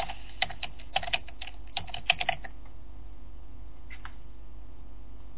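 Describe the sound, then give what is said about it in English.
Typing on a computer keyboard: a quick, irregular burst of many crisp keystrokes over the first couple of seconds, then a short pause and a brief pair of taps, all against a faint steady hum. “Just type in RegEdit.”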